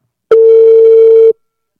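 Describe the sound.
Telephone dial tone heard while placing a live call: a single steady, mid-pitched tone that holds for about one second and then cuts off, with nothing else around it.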